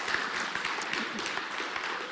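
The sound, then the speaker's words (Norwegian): Applause from a crowd fills the whole moment: a steady, dense wash of clapping at an even level with no pauses. “Ja, det verdt en applaus, for det bare kommer.”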